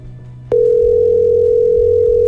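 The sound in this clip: A phone call's tone cuts in abruptly after half a second of low hum, then holds loud and unbroken at one steady pitch until the end.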